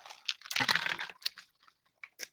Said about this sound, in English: Instead, I'm gonna take a sip of this here tea.